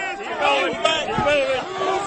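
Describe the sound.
Agitated crowd shouting as police shove people. Overlapping raised voices keep up a steady, loud hubbub throughout.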